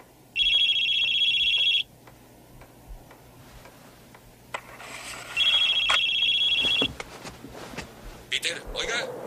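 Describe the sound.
Telephone ringing with two long, loud bursts of a bright electronic ring separated by a pause, accompanied by scattered ticking clicks and shuffling noises between and after the rings.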